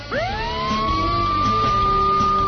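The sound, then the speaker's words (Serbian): Police car sirens wail outside, the tone sweeping sharply upward at the start and then holding a steady high pitch, loud and continuous to the end. “A napolju bruje policijski automobili u potrazi za njima.”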